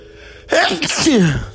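A single loud sneeze bursts out after a brief quiet lead-in, with a sharp onset followed by a falling, breathy tail.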